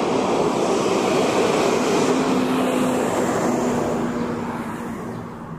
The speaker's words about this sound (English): here comes a truck.